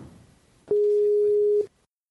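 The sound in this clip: A call-connecting tone sounds as a video call is set up: one loud, steady beep lasting about a second, with a soft click at its start and end and only faint murmur before it.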